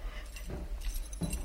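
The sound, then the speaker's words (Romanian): Keys jangling as someone handles a bunch of them at a desk drawer, soft metallic clinks and rattles coming in a few faint bursts over a steady low hum. “Umblă cu niște chei.”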